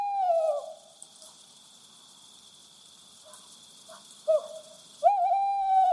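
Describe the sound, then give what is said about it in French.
A tawny owl hoots in clear, wavering, mid-pitched calls: a long quavering hoot, a brief note, then another long hoot. A faint steady hiss runs underneath. “l'iconique chouette Hulotte ulule de son populaire chant.”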